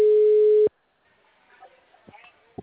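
A steady mid-pitched telephone tone sounds for well under a second after the call button is pressed, then cuts off abruptly into faint line noise and a few soft clicks.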